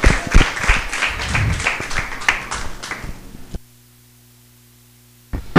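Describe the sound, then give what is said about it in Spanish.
Applause greets a winning number at a prize draw. A few seconds of dense clapping stop abruptly, leaving a low steady hum before a short burst of noise at the end. “Aplauso.”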